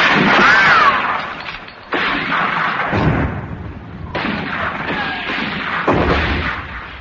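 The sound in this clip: Heavy gunfire opening a battle: several booming volleys, each a loud blast trailing into a rough, sustained roar of noise before the next crack.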